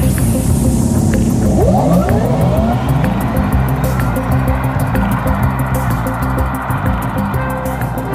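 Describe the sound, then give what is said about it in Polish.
Selectable designed driving sound of a Renault car: a loud, continuous synthetic whirring drone with a tonal sweep rising in pitch early on, over a steady dense rumble that holds without a break. “I przykładowo w niektórych samochodach marki Renault można sobie wybrać dźwięki zaprojektowane przez słynnego kompozytora Jean-Michela Lara.”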